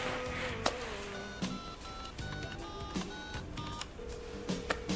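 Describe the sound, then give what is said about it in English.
Telephone dialing tones, a series of short electronic beeps at changing pitches, with other faint background sounds throughout. “Where's your phone? I've got to call Harley.”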